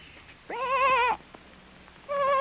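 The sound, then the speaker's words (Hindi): Two wavering, quavering bleats from a sheep caught among thorny bushes in a forest, separated by a quiet pause; the second bleat is cut off at the end. “तब गडरिये ने पहचाना कि ये उसी की भेड़ की आवाज है।”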